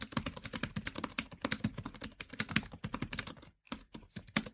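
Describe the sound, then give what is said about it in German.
Typing on a Mantis Q40 computer keyboard set on a desk a little away from the microphone: many quick keystrokes in a steady, brisk rhythm with one short pause, fairly quiet and without talk. “Um euch mal einen Eindruck zu geben, wie die Tastatur klingt, habe ich jetzt einfach mal ein Dokument aufgemacht und fange mal an zu schreiben.”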